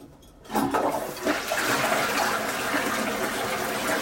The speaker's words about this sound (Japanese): 臭い。早く流そう。よいしょ。じゃあ流します。